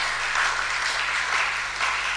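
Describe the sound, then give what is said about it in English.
A church audience clapping during a sermon, many hands producing a steady, moderately loud patter that swells gently and stays continuous throughout, over a faint low hum. “I think you should be clapping. You must be clapping.”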